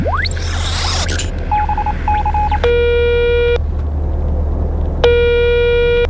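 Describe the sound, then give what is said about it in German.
Telephone dialing and ringing tones from a call placed to Earth. A rising sweep opens, then a few short keypad beeps and two long buzzy ring tones with a pause between them, all over a steady low hum. “Okay, warte mal, ich rufe mal Ava an. X-Funker, bitte parallel zu Yvonne einmal Ava anrufen von der Erde.”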